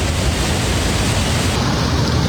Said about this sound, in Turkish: Artvin Borçka'da etkili yağışla birlikte Camili Deresi taştı.